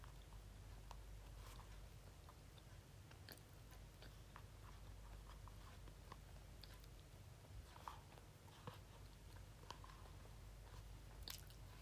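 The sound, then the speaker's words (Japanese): Someone eating a sweet potato, with faint, soft chewing and many small crunching bites over a quiet, steady background. “芋を食べてますさつまいも”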